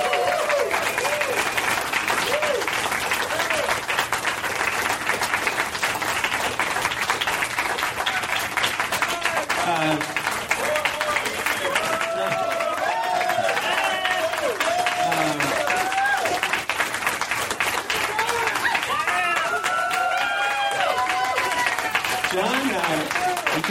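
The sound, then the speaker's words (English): An audience applauds and cheers to welcome a guest onto the stage at a live show. The dense clapping stays steady and loud for the whole stretch, and voices talk over it. “Please welcome my guest for tonight's show, John McCain. Give it up for him. John McCain's here.”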